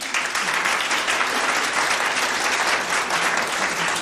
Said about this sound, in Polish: Proszę tutaj o krótkie brawa.